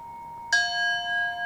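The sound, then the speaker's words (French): A gong struck once during a breathing meditation gives a bright metallic hit that rings on in steady, sustained tones over a faint ringing already present before the strike. “Cherchez progressivement à vous coordonner avec le rythme du gong.”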